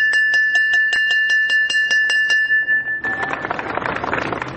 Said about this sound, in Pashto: د فرا ولایت د پوهنې ریاست لخوا نن د نوي ښوونیز کال د پیل زنګ په مراسمو کې وژغول شو.